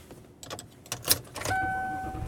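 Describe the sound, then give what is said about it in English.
Car sounds as someone sets off driving home in the morning: keys jangle among a few sharp clicks, then a steady hum with a thin, sustained high tone settles in and continues to the end. “And I am driving home. I'm actually driving home today.”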